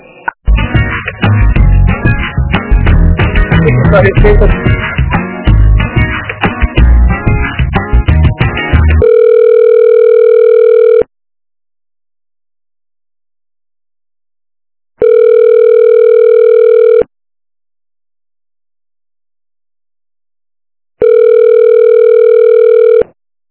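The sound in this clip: Telephone tone on a line while a call is being transferred: three steady, even tone bursts of about two seconds each, separated by equal silences, after a stretch of denser, busier sound.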